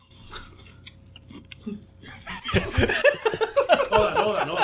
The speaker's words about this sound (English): Okay, just put the chip in your mouth, slowly salivate until it comes to your face.